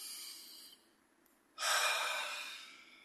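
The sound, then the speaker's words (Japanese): A deep breath taken during a short stretch break: a soft airy breath fades into a brief pause, followed by a louder, fuller rush of air that slowly tapers off. “深呼吸。”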